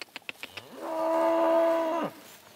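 A long, low mooing call from cattle on pasture in early summer, one sustained moo at a steady pitch, loud and alone, preceded by a few faint short clicks.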